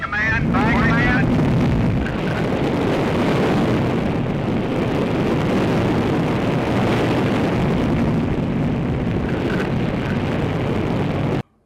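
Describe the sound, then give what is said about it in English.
A deep, continuous roar from an Army Jupiter C rocket launching a space satellite holds loud and steady for about eleven seconds, with a brief voice at the very start. “the Army's Jupiter C rocket is ready for America's second attempt to launch a space satellite.”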